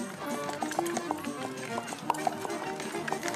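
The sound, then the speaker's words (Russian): Hooves clop steadily as a horse-drawn cart loaded with sacks passes along an embankment, giving many even hoof strikes in a continuous rhythm at low level. “По набережной проезжает груженная мешками телега.”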